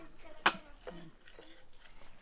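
A spoon stirs a citron mixture in a bowl, giving one sharp clink against the side followed by soft, faint scraping.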